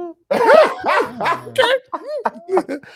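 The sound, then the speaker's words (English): A person's voice imitates a dog with many short, whiny yelps and whimpers that rise and fall in pitch in quick, uneven bursts. “Can you imagine the dog's face? He's like,”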